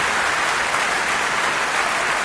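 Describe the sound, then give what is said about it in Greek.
Audience applause: dense, sustained clapping, loud and even from start to finish. “Λοιπόν, οι επιθυμίες και τα χειροκροτήματα δεν είναι για μένα.”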